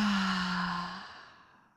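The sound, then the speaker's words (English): A deep breath pushed out through the mouth during a breathing exercise. It begins with a voiced, sigh-like tone, then trails into airy breath that fades steadily over under two seconds. “Another deep inhale. Hold a little bit and then exhale all air out through your mouth.”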